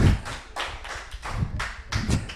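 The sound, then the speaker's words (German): Applause in a long-established pub, a small group clapping in loose, uneven bursts, the claps fairly loud and sharp, rising and falling without a steady rhythm. “jetzt kriegst du mal einen Beifall hier für deine tolle Kneipe hier”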